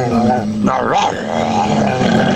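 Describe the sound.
A person's voice imitates a barking dog, producing loud, rough, growling yelps and snarls that run continuously with a brief rising and falling vocal swoop in the middle.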